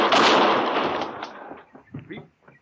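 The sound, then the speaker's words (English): A single gunshot in a western radio drama: one loud, sharp blast at the very start whose noisy tail fades over about a second and a half, leaving a few faint short sounds. “You shot him. Of course I shot him.”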